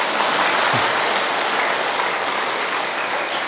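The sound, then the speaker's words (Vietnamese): Dense applause from a meditation retreat audience, an even, continuous wash of clapping that holds a steady level throughout with no voices. “Tự vỗ tay khen mình đi.”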